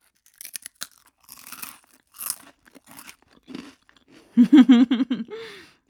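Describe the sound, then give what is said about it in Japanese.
Crunchy curry-flavored snack chewed in a few separate bursts of dry, crackling crunches, each short and fairly loud against silence, ending with a brief murmured vocal sound. “このザクザクとした食感、そして噛めば噛むほどもうカレーを感じられますね。”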